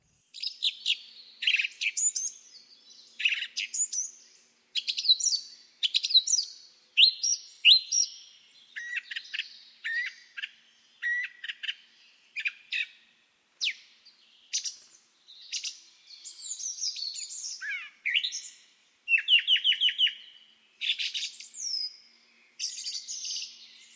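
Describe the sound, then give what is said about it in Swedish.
A common blackbird sings on its own, repeating many short, varied phrases of warbles and twittering chirps, each separated by brief pauses. “Koltrast.”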